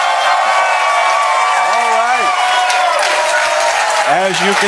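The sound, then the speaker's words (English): Live audience cheering at the SoCon 2026 conference: a dense, continuous wash of crowd noise and clapping at a steady loud level, with a few voices rising above it. “As you can tell, a very live audience, geared up and ready to go”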